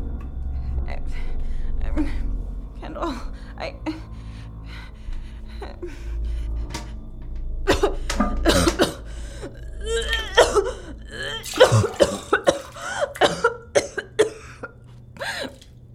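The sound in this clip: Coughing, gasping and throat-clearing from a person being made to throw up, with retching strains mixed in; the bursts come sparse at first, then grow louder and crowd together in the second half.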